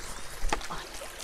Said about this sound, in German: Das ist ein reiner Naturteich, der hat keine Filter, gar nichts. Ach so, gar nichts. Nein, der hat nur bewegtes Wasser. Mehr hat er nicht. Also quasi eine große Pumpe ja.